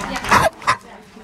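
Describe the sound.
Small dog barking in two short, sharp bursts close together, the first longer and louder, followed by quiet.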